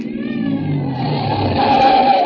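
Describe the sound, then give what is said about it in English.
A car engine accelerating as the car drives off, a steady rumbling drone that grows gradually louder, with a whining tone climbing toward the end. “Keep driving till we hit that bend in the road.”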